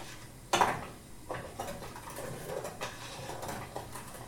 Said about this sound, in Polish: Musimy mieszać przez cały czas, ponieważ łatwo mogłoby się nam przypalić. I mieszamy.